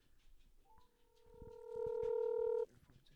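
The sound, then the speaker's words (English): Touch-tone telephone dialing as a call is placed, heard as clear electronic beeps that hold steady and end abruptly, with faint background noise before them. “Let me call Dustin real quick and see what his thoughts are.”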